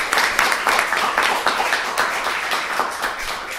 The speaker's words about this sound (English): So, thank you so much to the speakers. Honestly, give them a round of applause.